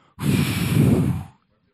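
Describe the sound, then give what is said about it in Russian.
A single deep exhale, a long breathy whoosh lasting about a second, let out while relaxing in a chair during a prayer. “Выдохни все свои проблемы, все свои нужды. Просто сделай так. Давай, выдыхай.”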